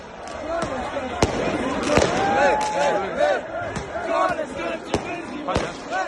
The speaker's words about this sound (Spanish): Sarajevo celebrando el pase de Bosnia al Mundial.